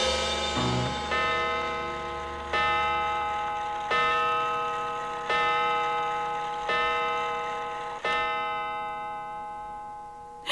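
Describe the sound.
A clock striking midnight: slow, evenly spaced bright chimes, each ringing out and fading before the next, forming a measured series of rich tones.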